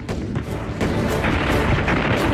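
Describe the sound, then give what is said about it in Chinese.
Artillery barrage from Northeast Field Army guns concentrating fire on a Nationalist bunker group at Peishuichi: a dense, loud, continuous rumble of overlapping booms and blasts with no pauses and no voices. “东北野战军炮兵集中火力射击国民党军沛水池地堡群，4发命中。”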